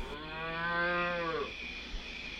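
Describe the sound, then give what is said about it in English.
A cow in a pasture gives one long, loud moo rich in harmonics, dipping in pitch as it ends, followed by quiet background noise and a brief low thump. “The cows around here? Charlie Barton's got a couple of acres of pasture just down the hill. They don't sound right.”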